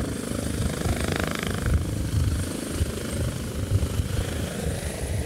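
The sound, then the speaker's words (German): An ADAC rescue helicopter lifts off from a meadow beside a motorway rest area on the A8 between Munich and Salzburg, with wind blowing. Its rotors and engine make a steady, dense, throbbing roar throughout, with no voices. “der ADAC-Rettungshubschrauber, hebt eben von der Wiese an der Raststelle Irschenberg ab.”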